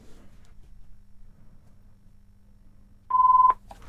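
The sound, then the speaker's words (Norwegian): A single ringing tone sounds during a bingo game draw, one loud, steady, even-pitched beep lasting under half a second, following a stretch of faint low background noise. “Og der ringer det.”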